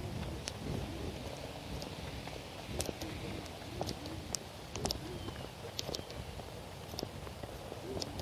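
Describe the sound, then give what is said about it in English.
A stiff wind of thunderstorm outflow buffets steadily as a continuous low rumble and hiss, with a few faint scattered clicks throughout. “I think this is actually outflow that I'm feeling. It's more than just morning breeze. It's quite a stiff wind.”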